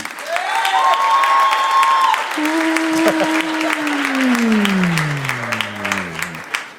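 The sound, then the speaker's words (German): Audience applause for a quiz contestant, a dense, loud, steady wash of clapping throughout, with a sustained tone sliding slowly downward in pitch over its second half. “Und jetzt euer Applaus für Tobi.”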